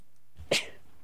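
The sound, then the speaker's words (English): A single sharp sneeze bursts out after a soft intake of breath, brief and fairly loud against a quiet background. “Oh, excuse me. Please excuse my sneezing.”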